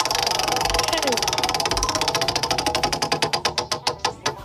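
A prize wheel spins during a trivia prize game, its rapid ticking clicks starting as a dense blur and slowing into distinct, increasingly spaced clacks as the wheel winds down to a stop.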